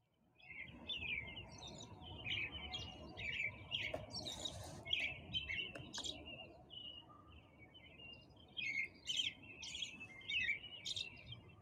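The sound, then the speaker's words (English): Birds sing in the early morning with many bright, repeated chirps and short trills running through the whole clip over a soft, steady low rumble, with no traffic noise. “Listen to the birds sing.”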